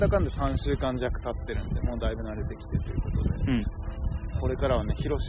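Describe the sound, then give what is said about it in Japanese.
Cicadas singing outdoors in a steady, high, buzzing drone that runs unbroken beneath two people chatting. “今日はね、屋外でセミの声も BGM しながらお届けして”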